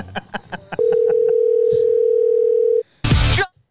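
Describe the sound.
A steady telephone tone sounds while a call is placed, holding one unbroken mid-pitched note for about two seconds. Brief voices come before it, and a loud, harsh burst of sound follows.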